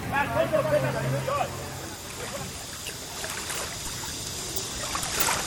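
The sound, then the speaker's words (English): Tide swooshing in on a beach: a steady, broad rushing wash of water that swells slightly and continues without pause, with a voice briefly audible near the start. “The tide is swooshing in. I think I'll go to the beach and swim.”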